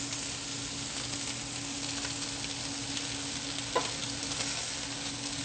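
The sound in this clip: Food sizzles steadily as it is stirred in a pan over fairly high heat, a vegan dish with barbecue sauce; a constant bright hiss runs throughout, with one brief scrape near the middle and no talk.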